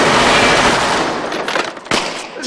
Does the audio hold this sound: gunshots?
yes